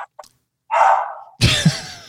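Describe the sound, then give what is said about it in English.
A pet dog barks at home: one longer mid-pitched bark stands out between brief faint sounds, followed by a louder burst of broad noise. “Sam is barking.”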